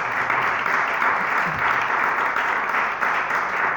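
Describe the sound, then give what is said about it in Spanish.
An audience gives even, sustained applause to welcome the filmmakers of a debut feature film, a steady wash of clapping with no break across the whole clip. “No sé si queremos recibirlos con un gran aplauso. Dale la bienvenida acá a la comarca.”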